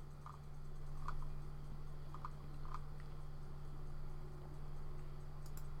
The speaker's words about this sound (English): Let me actually click on this.